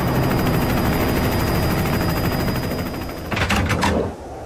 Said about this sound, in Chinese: 一架日军的运输机缓缓地降落了。